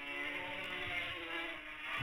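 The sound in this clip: Racing motorcycles pass on a road course, two riders close together, their high-revving engines making a loud, continuous buzzing drone rich in layered harmonics with no clear rise or fall in pitch.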